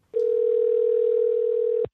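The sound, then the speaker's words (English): Telephone dial tone heard while calling: a single steady, unbroken electronic tone that holds at one pitch for nearly two seconds, then cuts off sharply, with no voices. “We're going to start by calling Amanda. Go ahead and dial her.”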